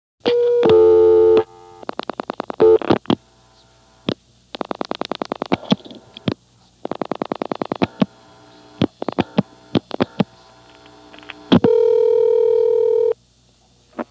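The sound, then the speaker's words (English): Telephone line tones and switching clicks after dialing 00 plus two digits. A steady tone opens, then bursts of rapid clicks alternate with short silences, and another sustained tone closes the sequence. “will probably go to the Beaufort intercept recording when I dial 00 plus any 2 digits. However, there's a chance that it will still be waiting for more digits, in which case it very likely will work from here. Let's find out.”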